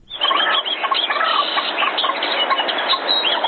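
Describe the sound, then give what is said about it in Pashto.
A dense chorus of many birds singing and chattering together in a park area of Ghazni, Afghanistan, a loud, unbroken wash of overlapping chirps with no voices. “دې سیمې ته ورولي چې مرغان پکې سندرې وایي”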